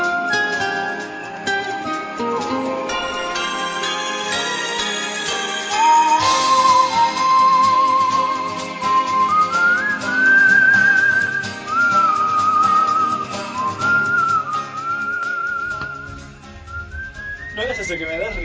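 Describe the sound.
A person whistles a tune, a clear, high, fairly loud melody of held and stepping notes that runs for many seconds over a dense background of other sound.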